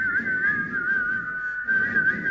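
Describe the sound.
A person whistles one sustained tone with a gentle wavering vibrato. The tone holds steady with a brief dip near the middle, over low background noise.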